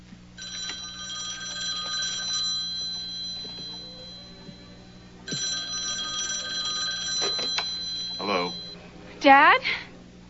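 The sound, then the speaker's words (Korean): Telephone ringing in a quiet, messy house after a wedding reception: two long bursts of bright, trilling rings separated by a short pause. “그때 전화가 옵니다.”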